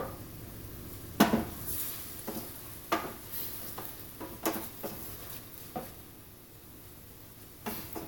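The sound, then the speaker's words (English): A utensil scrapes and knocks against a pan while food with sausage is stirred over a soft sizzle. The clinks are irregular and moderately loud, then ease off before one last tap. “Put that stuff back. Let's mix that guy up. Make sure it gets everywhere it needs to be.”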